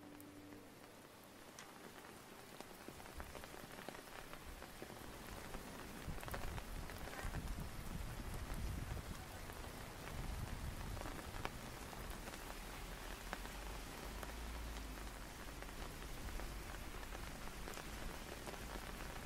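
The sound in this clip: Steady rain falls during an autumn walk in London, a dense and even patter of drops that stays constant and moderately loud throughout, with no voices.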